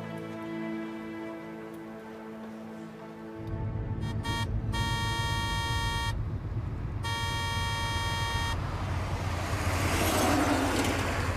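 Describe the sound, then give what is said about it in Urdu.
A car horn honks in several blasts: a few short toots, then two long sustained blasts with a bright harmonic tone. A steady rumble of traffic or engine noise runs underneath throughout. “واہ بیٹے، اس قد horn کیوں بجا رہے ہو؟ کیا بہت جلدی ہے تمہیں؟”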